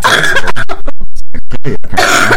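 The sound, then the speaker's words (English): Harsh coughing after vaping an e-cigarette, a loud rapid string of many short cough bursts in quick succession, with no speech between them. “Yeah, it makes me cough too. It's a little rough.”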